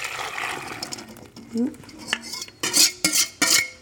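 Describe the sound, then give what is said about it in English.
Ladling and mixing an egg and milk mixture in a still-warm pan: soft scraping and stirring, then several sharp metallic clinks and clatters of utensil against the pan toward the end. “I'm gonna do one more ladle and then we're gonna mix it all together and add it back to the heat.”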